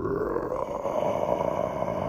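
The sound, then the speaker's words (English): A human voice imitates a demon bear's low roar: a continuous rough, guttural growl, deep and steady, lasting about two seconds with no other sounds. “we see the demon bear approaching. Right, the shadow of its mouth on the wall behind them, and it's letting out a low”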